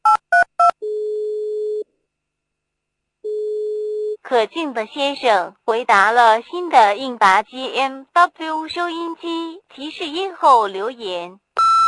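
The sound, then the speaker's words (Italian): Telephone dialing and ringing for a call: a few quick dialing beeps, then two long steady ringing tones separated by a silent pause, followed by people talking. “Ora chiamo Fulvio.”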